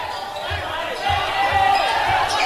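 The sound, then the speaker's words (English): A basketball being dribbled on a court during a boys' high school game, about six steady low bounces in even rhythm under crowd noise and talk. “He's going to dribble right.”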